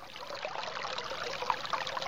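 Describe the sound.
Water flowing in a stream at the foot of a mountain, a steady, moderately quiet babbling trickle that runs without pause.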